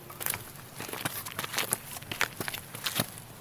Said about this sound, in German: Wir gehen jetzt mal schauen, was hier in diesem, wohin dieser dunkle Pfad hier führt. Diese Treppen, die scheinbar wirklich in schwarze Finsternis hinaufsteigen.